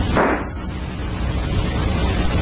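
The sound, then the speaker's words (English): A gunshot cracks inside an empty, deserted house: one sharp blast at the start, followed by a low, steady noisy rumble with no voices. “Two bullets right through his head.”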